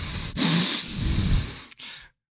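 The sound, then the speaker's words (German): Heavy, rough breathing close to a microphone: a few loud, noisy breaths in quick succession, each a breathy hiss with a raspy edge, followed by silence. “Ja, aber ich atme ja wie so ein Walross.”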